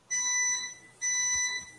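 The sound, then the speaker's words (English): A buzzer sounds twice, two loud, bright electronic tones of about half a second each, separated by a short gap. “that's the buzzer. That's the final buzzer on this podcast.”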